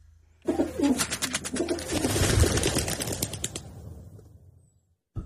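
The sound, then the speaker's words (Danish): Town hall pigeons cooing while being fed: a dense, continuous mass of bird sound that swells, holds for several seconds, then gradually fades out. “Rådhusduerne. Lige præcis.”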